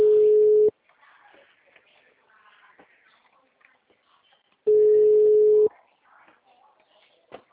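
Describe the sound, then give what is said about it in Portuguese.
Ringback tone of an unanswered phone call: two steady, mid-pitched tones, each lasting about a second, separated by roughly four seconds of quieter gap with faint voices. “tô ligando pro Davi e não atende mais”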